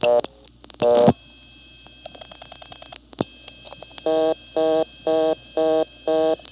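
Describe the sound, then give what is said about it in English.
Telephone dialing of 221 on the Montpelier exchange: brief tones, then a run of dial clicks, followed by a reorder tone sounding in five evenly spaced, steady on-off beeps. “If you just came into Montpelier and dialed the 1, you're supposed to get a reorder. It blocks, goes to the 11th terminal. And here's that happening. 22 for Montpelier, and then 1. 221.”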